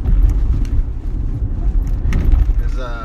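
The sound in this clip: A car driving on a road on a Tuesday morning in Houston, heard from inside: a continuous low rumble of engine and tyres with slight fluctuations and faint higher rattles.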